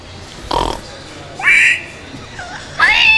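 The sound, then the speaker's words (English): A voice imitates a pig's squeal: a short rough burst, then a few shrill, high-pitched squealing cries, fairly loud, with quieter gaps between them. “Squeal. He does that really good.”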